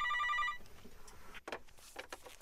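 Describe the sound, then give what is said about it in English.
A brief telephone ring on an outgoing call to a mobile phone: one short burst of bright, buzzing tone at the start, then softer, noisy line sound. “I made a phone call, I got his cell phone, and I rang him up.”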